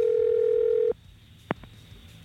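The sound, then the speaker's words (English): A steady telephone dial tone hums alone for about a second during an outgoing call, then cuts off. A short sharp tone burst and a faint click follow on the line. “Let's dial Emma. I hope they pick up.”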